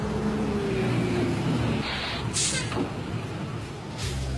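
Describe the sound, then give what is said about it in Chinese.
A city bus pulls into a stop. A faint low engine rumble carries a slowly falling whine, followed by a couple of short bursts of air hiss. “公交车马上就要进站了，请大家自觉排好队。”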